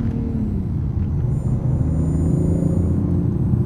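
Deep, steady rumble of a car engine with the transmission in manual sport mode. The low throaty drone holds fairly even and loud, with no clear rise in revs and no voices.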